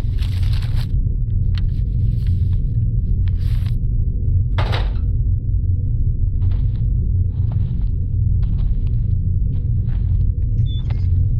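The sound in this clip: Footsteps climbing stairs, several spaced thuds and creaks over a constant low rumble.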